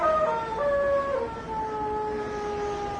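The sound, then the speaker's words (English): A hound howls in long, drawn-out wailing tones that waver and slide downward in pitch, one cry trailing into the next over a low rumbling background. “What was that? The hound.”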